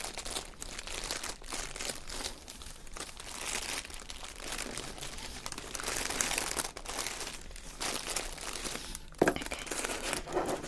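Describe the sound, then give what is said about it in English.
Paper crinkles continuously as gift items are handled during a Secret Santa unboxing, a steady close rustle and crunch with one sharper crackle near the end. “Lovely crinkly paper.”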